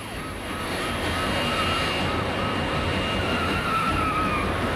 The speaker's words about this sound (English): As the van picks up speed, the plane carries on taxiing.